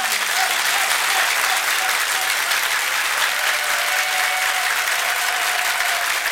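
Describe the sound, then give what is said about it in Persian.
Audience applause during a Persian-language sing-along, the crowd clapping on the performer's urging. Dense, steady clapping holds at an even level from start to finish, with no voices standing out. “کف بزن دیگه،”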